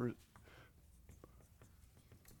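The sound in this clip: Handwriting with a pen or marker, heard as faint, scratchy strokes that repeat in short, irregular bursts over a low steady background.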